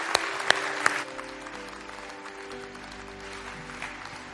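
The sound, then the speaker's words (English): A church audience applauds to welcome new believers: a few sharp, distinct claps at the start give way to steady, even clapping that carries on at a moderate level to the end. “Can we put our hands together and welcome new believers into God's family?”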